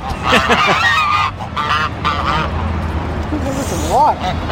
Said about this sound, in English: Why is it hissing? Maybe it's sick.